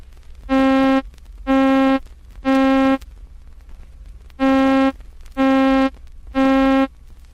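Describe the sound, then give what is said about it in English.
An electronically generated middle C tone with all its overtones plays six times as bright, buzzy, sustained notes. The notes come in two groups of three, separated by a short gap. “Middle C, with all its overtones, sounds like this.”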